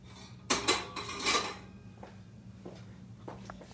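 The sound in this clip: Metallic clatter as a pot is set down on a stovetop: a few loud clanks and scrapes bunched within about a second, followed by faint, scattered knocks and clicks.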